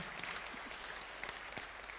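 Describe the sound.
Audience applause at a conference, given to the paper committee: dense, steady clapping that fills the whole stretch without a break, with no clear voices.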